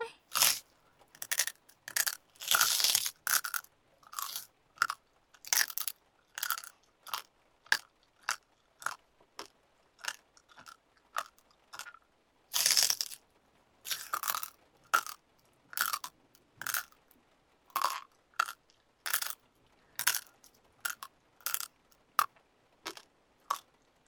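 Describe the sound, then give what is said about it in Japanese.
Something hard being crunched between the teeth, producing many loud, crisp crunching bursts in a quick, uneven rhythm, heard alone without talk. “ゴリゴリ噛み砕くの楽しいかも。”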